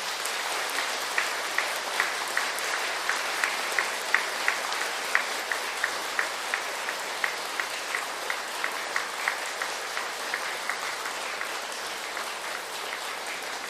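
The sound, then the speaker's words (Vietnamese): An audience applauds at a Vietnamese Buddhist temple gathering. The clapping is a dense, continuous clatter of many hands, with a regular pulse of sharper claps standing out. It stays moderately quiet and sustained throughout. “Nhân dịp này, quý vị hãy cùng tôi dâng cao tràng vỗ tay thật lớn.”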